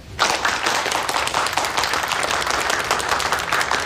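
Group applause welcomes a newly appointed political commissar of a city public security bureau, announced to colleagues during an urgent case meeting: dense, steady clapping starts just after the opening moment and holds at an even level throughout, with no voices.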